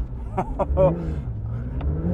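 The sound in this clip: A Porsche engine drones and revs as the car drives up a sand dune, a steady low rumble with gently shifting pitch under the throttle. A man briefly speaks over the engine noise near the start.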